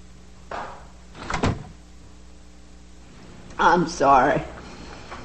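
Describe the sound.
Door sounds as someone walks out of a room: a faint rustle, then a brief sharp thud, and later a short burst of voice-like sound.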